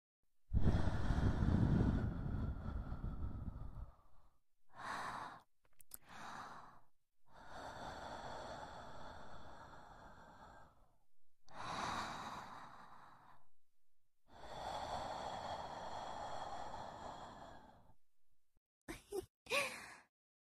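Soft breaths are blown close into the ear in a series of airy puffs and drawn-out exhalations, some quick and clipped, others long and gentle, with quiet pauses between them.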